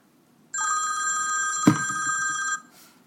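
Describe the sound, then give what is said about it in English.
A telephone rings during a conversation: a bright, steady electronic ring sustained for about two seconds, with a brief thud partway through, then it stops. “Oh, forgot to turn the phone down.”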